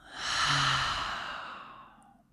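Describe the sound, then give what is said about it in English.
A long, deep breath: one soft, airy, sigh-like sound that swells quickly, then fades slowly over about two seconds, with no talk. “Let's take a long, deep breath in and a long, deep breath out.”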